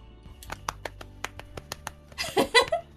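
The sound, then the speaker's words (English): Light hands clap in a slow, uneven series of sharp, isolated claps, followed by a brief burst of voice at the end. “Congratulations. I guess this is kind of like a promotion. Yep. Clap, clap, clap.”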